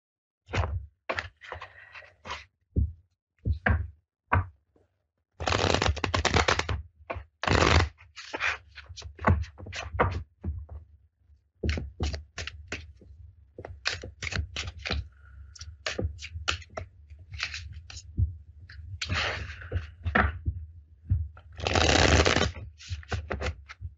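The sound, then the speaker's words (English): A deck of playing cards is shuffled in many irregular bursts of riffling and sharp snapping, some short and clipped, others longer, with quiet gaps between. “Actually, that is something I have done before with the cards. Okay. So, give me a moment while I shuffle.”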